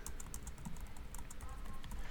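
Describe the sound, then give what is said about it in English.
Rapid typing on a computer keyboard, with many quick key clicks in an uneven, continuous patter at a fairly low level. “I'm gonna type in "give me a random color."”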